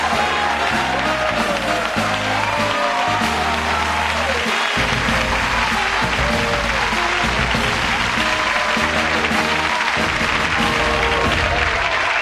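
Loud studio audience applause on a home-improvement TV show set welcomes the Endeavour space shuttle crew, a dense, continuous clapping that lasts throughout over a band playing.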